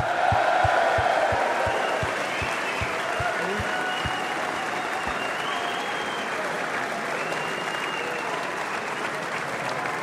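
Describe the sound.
Sustained applause from an audience at a live rugby event at The Mansion House, greeting a rugby player. The clapping is dense, steady and loud, continuing evenly for the full length with no clear voices above it.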